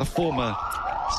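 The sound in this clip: Siren marking a no-ball at a World Cup cricket match in the Himalayan foothills, a brief upward-gliding wail that levels into a steady tone beneath a voice talking.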